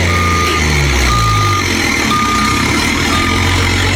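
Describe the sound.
Backup warning beeps from a reversing vehicle: four evenly spaced, steady high-pitched tones over a loud, constant low engine rumble.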